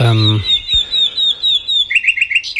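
A nightingale singing: a rapid series of high, bright chirps and whistled notes, repeated in quick succession and shifting to a slightly different phrase near the end.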